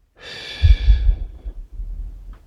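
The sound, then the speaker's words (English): A slow breath exhaled out during a calming breathing exercise: one long, soft, breathy rush of air on its own, fading away, followed by a fainter short breath. “Breathe through your nose, to your belly, hold it, and breathe out.”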